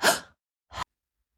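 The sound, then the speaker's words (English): Quick breaths taken as part of a calming breathing exercise: a louder, breathy first breath, a short silence, then a second, briefer one, with nothing clearly audible afterward. “I take two quick I take two quick inhales to one long exhale.”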